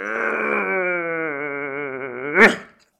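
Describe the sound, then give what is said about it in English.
A person yawns aloud while stretching, a long voiced moan that wavers slightly and slowly sinks in pitch, ending in a short breathy burst before falling silent. “Let's take a little break because I'm yawning and stretching, trying to come alive”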